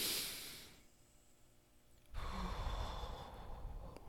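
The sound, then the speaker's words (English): A deep breath during a guided relaxation session: a soft, airy hiss that fades out, a short quiet pause, then a fuller, louder rush of breath that carries on to the end. “At three, take a deep, deep breath.”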